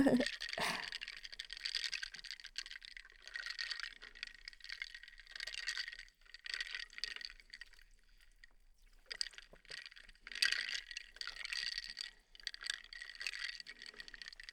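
Ice rattles against a glass as a refreshing drink is stirred: bright, clattering bursts of rattling that repeat with short pauses between them, with no voices.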